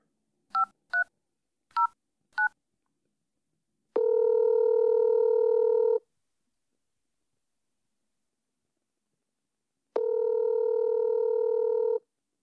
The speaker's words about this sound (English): Okay, here we go. Dialing the number.